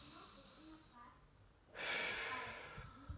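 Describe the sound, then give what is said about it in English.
A single deep breath drawn in during a guided mindfulness session. Faint, quiet speech comes first, then one loud, airy inhale swells and holds for about a second. “This moment, get us present to the moment, this moment, right now. Breathe in.”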